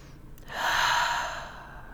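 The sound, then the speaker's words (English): One deep breath, drawn during a guided self-affirmation exercise in front of a mirror, comes as a soft, airy rush that swells and fades over about a second, with no other sound. “Take a nice deep breath.”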